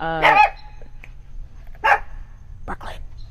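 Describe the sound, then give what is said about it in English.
Dog barking: a few sharp barks, spaced unevenly with quiet gaps between them, over a low steady background hum. “Sorry. That was a dog. That was a dog, but we're going to let that slide.”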